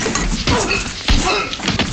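Punch sound effects from an Elvis Presley film trailer: a few heavy, booming thuds strike through a dense, loud trailer mix, the strongest landing midway.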